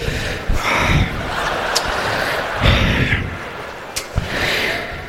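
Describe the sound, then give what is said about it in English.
Voice imitating an airline pilot panting, totally out of breath after the plane hit the runway sideways at LaGuardia: a few heavy, breathy gasps in and out, fairly loud and uneven. “And the pilot comes back on, all true, I swear to God. He's totally out of breath. He's like.”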